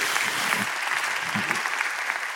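A church audience applauds to welcome a worship pastor, with dense, even clapping that stays steady and continuous for the whole stretch.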